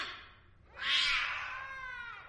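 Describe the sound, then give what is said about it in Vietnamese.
A black cat meows softly inside a parked car, giving one faint, drawn-out cry that swells and then trails away slowly. “Vừa mở cửa thì từ trong xe khẽ vang lên tiếng mèo kêu.”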